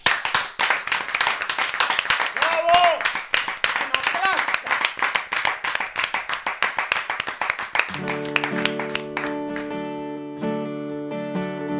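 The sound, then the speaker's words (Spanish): Applause from an audience at a veterinary congress, cheering a singer: rapid, loud clapping that lasts about eight seconds, then fades as sustained tonal music begins underneath. “por eso pedimos un fortísimo aplauso para Carla Lourdes que nos interpreta Platónico.”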